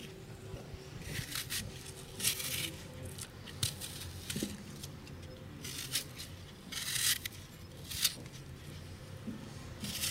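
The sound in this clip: Apples being peeled by hand, heard as many short, irregular scraping rasps over a steady low hum.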